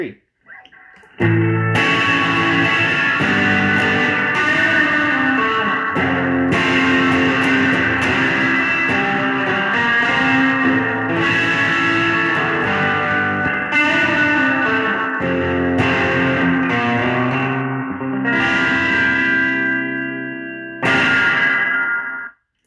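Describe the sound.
Subtones from a Boing effects pedal sound as thick, heavily distorted, sustained notes with long ringing decays. The phrases are loud and steady, broken by a few short pauses and one longer break near the end.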